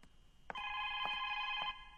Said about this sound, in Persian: باشیم که برم تلفن رو جواب بتون ببینم کی هست، پس میایم.